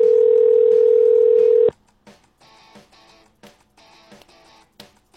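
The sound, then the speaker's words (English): A telephone ringing tone on a call that keeps ringing, a steady single-pitched tone held for under two seconds before cutting off, followed by a few faint clicks and bumps. “this fucking phone just rings forever”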